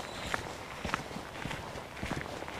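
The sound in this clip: Footsteps of a brisk hike along a path toward a moor, a steady, even rhythm of firm steps.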